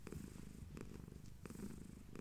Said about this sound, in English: She is such a happy cat today. She sat on me for like 30 minutes.